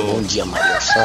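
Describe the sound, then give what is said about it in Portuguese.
A rooster crows in the background of a phone call from Lagoa Encantada. Its drawn-out harmonic call runs under a man speaking a morning greeting. “Olha o galo cantando aí.”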